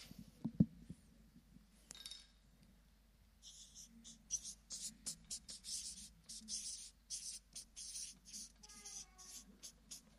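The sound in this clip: Faint scratching of a pen writing something down. Many short strokes repeat in uneven bursts, mostly in the second half.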